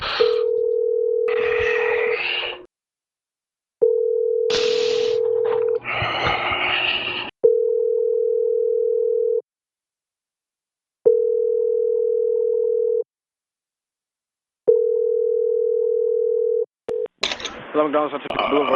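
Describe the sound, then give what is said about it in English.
Ringback tone of an outgoing phone call to a fast-food restaurant: five steady, low buzzing rings with even pauses. People talk over the first two rings, and a voice answers at the end. “I'll be inside by the time the phone's ringing. I'll get the phone ringing.”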